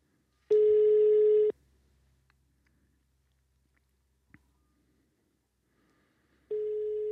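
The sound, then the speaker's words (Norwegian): A telephone call to Sweden ringing out: a steady, mid-pitched ringback tone sounds for about a second, then there is near-silence with a faint click, then the tone returns about six seconds later and continues to the end. “La oss ringe Sweden.”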